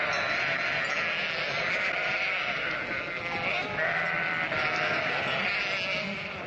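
Sheep bleat in Azerbaijan, many overlapping calls forming a dense, steady wall of sound that runs the whole time at moderate loudness.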